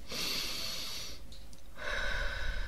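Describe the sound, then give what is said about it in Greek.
Deep, loud breathing forms a warm-up inhale-exhale exercise: one long airy breath is followed by a short pause and then a second long, rushing breath. No words are spoken. “Κάνουμε εισπνοή-εκπνοή πρώτα να ζεσταθούμε.”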